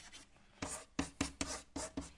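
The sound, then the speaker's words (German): Handwriting, a pen scratching in several crisp, evenly spaced strokes that start after a brief quiet moment and repeat in a steady rhythm, faint and alone. “ich schreibe mal gestellt in Klammern”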